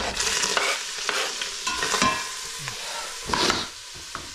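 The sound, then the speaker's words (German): Onions sizzle steadily as they fry in a pan, with continuous scraping and stirring and a few louder clattering strokes. No voices. “dann hauen wir schon mal die Zwiebeln hier rein, da haben wir ein bisschen Platz.”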